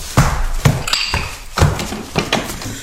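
A window being shut: a few dull taps and thuds in quick succession, fairly loud and alone, with no voices.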